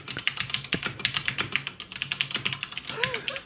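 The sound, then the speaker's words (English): Many quick, light keystrokes as a password is typed on a computer keyboard, in an uneven rhythm, with a voice coming in briefly near the end. “Hold on, I can't type my 1Password apparently.”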